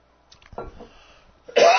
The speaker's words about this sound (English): Yeah, a little bit of a dry throat there.